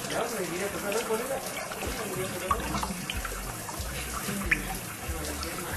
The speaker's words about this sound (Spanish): Escuchame, apagá el bidet por lo menos si vas a seguir.